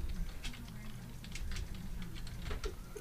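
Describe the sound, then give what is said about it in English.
Computer keyboard typing while searching for a video online: many quick, light clicks in an uneven rhythm over a low, steady hum. “Just type in a best Batman reaction.”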